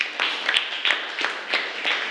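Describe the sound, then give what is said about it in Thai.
An audience claps for group one in a rhythmic, steady beat of about three claps per second. The clapping stays at an even, moderate level throughout. “ปรบมือให้กับกลุ่มที่หนึ่งด้วยค่ะ”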